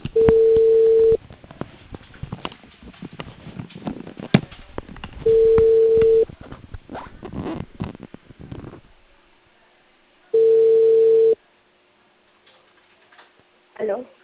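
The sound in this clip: Ringing tone of an outgoing phone call placed by a cable company in Peru: three steady, mid-pitched tones, each about a second long and spaced several seconds apart, with noisy background sound between them.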